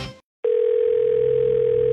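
A telephone dial tone before a call. After a brief sound and a short silence, a loud, steady, unbroken tone holds for about a second and a half.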